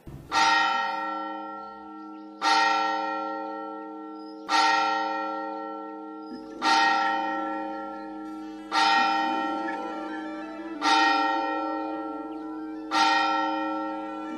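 A cathedral bell strikes the hour of seven. It gives seven loud, evenly spaced strokes about two seconds apart, and each ringing tone decays slowly before the next.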